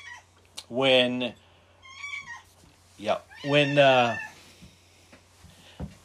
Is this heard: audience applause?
no

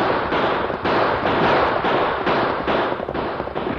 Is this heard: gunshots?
yes

